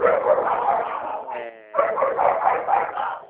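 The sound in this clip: Dogs barking in a dense, continuous burst of loud barks, with a brief lull near the middle before the barking resumes just as strongly.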